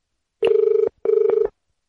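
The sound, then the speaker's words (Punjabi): A telephone bell rings for an incoming call in two bursts of about half a second each, separated by a short gap. Each burst is a rapid, buzzing trill on a steady pitch, loud and clear against silence. “ਬੱਜ ਗਈ ਘੰਟੀ।”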